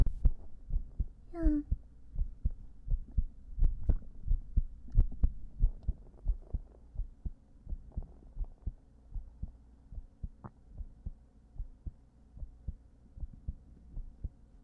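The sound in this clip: A heartbeat picked up by a microphone held at the heart's position on the chest thuds as many soft, low, steady beats under a faint hum, with the level rising and falling from beat to beat.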